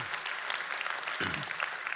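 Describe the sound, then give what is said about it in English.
A church audience gives a clap offering, a dense and steady patter of many hands that holds at an even level for the whole two seconds. “Somebody give the Lord a clap offering today, please, okay?”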